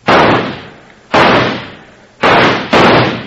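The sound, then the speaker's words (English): Gunshots blasting at a stuck door lock: four loud, sharp reports, each with a long decaying tail. The last two come close together. “Stand back. I'm going to shoot that lock loose.”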